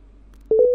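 A telephone busy tone sounds after a call is hung up: one short, steady mid-pitched beep with a slight pulsing, lasting about a quarter second, heard alone.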